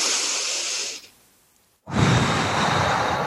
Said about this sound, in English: So you're going to breathe in and inflate the belly. Okay. And then you're going to do a big exhale. However it looks is how it looks. So deep inhale.